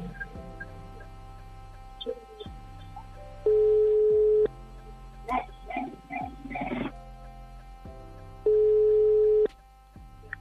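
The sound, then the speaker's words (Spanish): Telephone ringback tone heard while dialing a caller: two long, steady electronic tones separated by a pause, with a brief voice between them and music playing underneath throughout. “Ahí estamos, llamando.”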